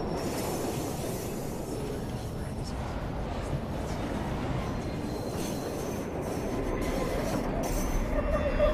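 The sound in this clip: A train pulling away from a station, heard from inside a carriage: a steady rumble of wheels on track with faint high squeals, swelling slightly louder toward the end.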